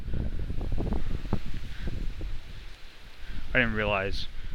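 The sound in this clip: Wind buffets the microphone, producing a steady, low, rumbling roar throughout, with a voice heard briefly near the end.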